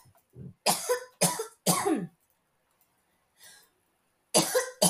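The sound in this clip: Coughing from a tickle in the throat comes as several harsh bursts in quick succession, then a pause with a faint throat sound, then another cough.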